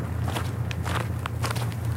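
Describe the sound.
Footsteps walking into a wood, with several soft crunching steps at an even pace over a steady low rumble and no voices.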